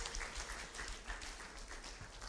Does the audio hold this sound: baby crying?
no